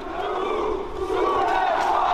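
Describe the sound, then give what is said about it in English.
A protest crowd in Paris chants against the pension bill at the Place de la République. Loud, massed voices carry on continuously, swelling slightly in the second half. “Paris, stand up, rise up. That was the chant last night at the Place de la République, where once again crowds came out to denounce the passing of the pension bill”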